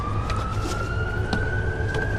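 An emergency siren wails over low traffic rumble, holding one steady tone that climbs slowly in pitch throughout, loud and continuous.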